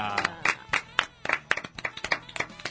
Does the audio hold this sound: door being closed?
no